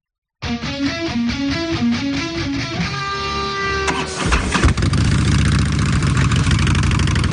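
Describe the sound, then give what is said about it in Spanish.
Harley-Davidson motorcycle engine idling, a deep, loud, steady rumble with low pulsing that takes over after a few seconds of brief tonal sound. No voices are heard. “¿Estás escuchando? El motor de esta preciosa Harley Davidson suena al mejor rock.”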